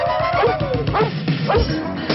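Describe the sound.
A dog gives a few high, sharp yips and barks in a quick irregular series, each one bright and whining in tone, at a fairly steady loudness.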